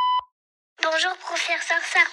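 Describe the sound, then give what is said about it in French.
An answering machine gives a single short electronic beep, a clear steady tone that stops abruptly. Silence follows, then a voice begins speaking. “Allez, hop, en route sur le répondeur”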